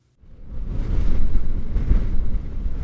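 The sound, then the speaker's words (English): Violent wind in Jeffrey City, heard from inside a car, rises quickly out of silence into a loud, continuous, low roaring rumble that holds steady to the end. “Through Jeffrey City blows a wind so violent it sounds like this from the inside of my car.”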